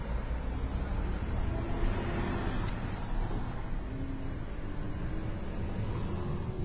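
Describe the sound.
A steady, dense rumble of engine and road noise as a car begins moving after its emergency brake is released. The noise stays continuous and even throughout, with no clear breaks.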